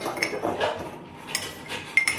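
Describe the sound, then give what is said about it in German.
A spoon stirs in a bowl during cooking, giving a scraping sound broken by a few sharp, bright clinks at the start and near the end. “Oder soll ich immer noch weiter rühren? Rühr mal ruhig.”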